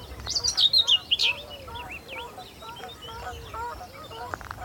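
Whitethroat singing from a bush in marshland: bright, scratchy chirps with a louder burst of high notes near the start, then a run of quicker, fainter warbling phrases.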